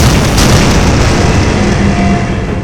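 Explosion sound effect: a loud, dense roaring rumble fills the whole stretch without a break and eases only slightly toward the end.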